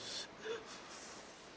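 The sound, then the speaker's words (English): A soft, brief deep breath drawn in by someone settling an upset stomach during a journey, with a sharp gasping onset that fades into a faint airy hiss. “No, breathe in.”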